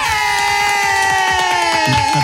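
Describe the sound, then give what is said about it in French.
Cheering and clapping given on request: loud, steady crowd-style cheers with a rapid patter of claps running throughout, alone and lasting just over two seconds. “Est-ce que tu as besoin encore d'un petit applaudissement là? Avec plaisir. Allez.”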